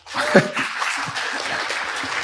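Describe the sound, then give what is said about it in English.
Audience applause at a talk, heard as brief, fairly soft clapping with a faint chuckle near the start, lasting about two seconds. “Big round of applause for Rebecca.”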